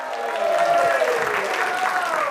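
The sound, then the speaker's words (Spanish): Applause from a comedy show audience welcoming the next comedian: dense, steady clapping with cheering voices mixed in throughout. “Para él también un aplauso de 12 sobre 10.”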